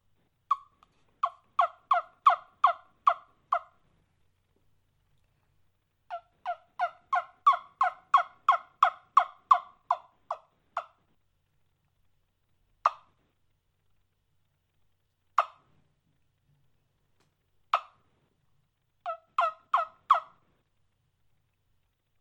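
Turkey yelps worked on a handheld hunting turkey call, in several runs of sharp, evenly spaced notes, the longest run holding more than a dozen yelps. Single yelps sound in the gaps between runs, and a short final burst follows.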